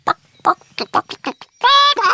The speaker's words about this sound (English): They're chickens. Yes, and they have eggs too.